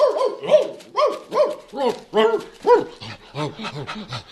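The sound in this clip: A shepherd boy's loyal dog gives a quick run of many yelping barks and whimpers, each one rising and falling in pitch, repeated in a fairly even rhythm.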